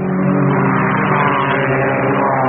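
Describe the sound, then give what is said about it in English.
Racing car engines roar at the Le Mans endurance motor race: a loud, dense, continuous revving drone that holds steady throughout. “Listen to the sound of Le Mans.”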